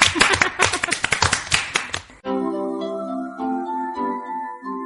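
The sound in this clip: Children clapping for themselves during a kids' quiz segment, a quick, uneven patter of many hand claps lasting about two seconds before it cuts off and bright, melodic music takes over.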